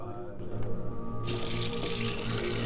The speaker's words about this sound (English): Brody washes his hands at the sink